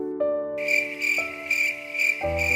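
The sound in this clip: Cricket chirping in a children's story: a few bright, high, pulsing chirps repeating at a steady pace over soft sustained musical tones that shift pitch a couple of times.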